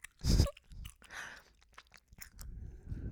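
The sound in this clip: Gum being chewed close to the ear: many wet, sticky smacks and soft clicks in an irregular rhythm, quiet overall, with one louder crunching bite at the start.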